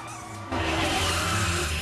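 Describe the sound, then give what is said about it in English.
A car skids across the road and brakes hard, with a sudden loud tire screech that starts partway in and holds steady to the end. “Diane swerves to avoid him, and another car skids across the road, breaking within inches of Shaft's body.”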